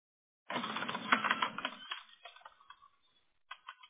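Typing on a keyboard: a quick flurry of dense, clattering keystrokes that thins into scattered taps, then a short pause and a few final clicks.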